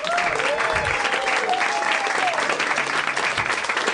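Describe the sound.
Applause from an audience welcoming a new guest, dense and continuous clapping that holds an even loudness from start to finish.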